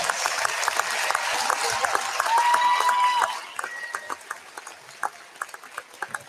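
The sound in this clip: Applause from a crowd honoring graduating high school seniors at a school sports event. Dense clapping with a brief whistle-like tone thins after a few seconds into scattered claps.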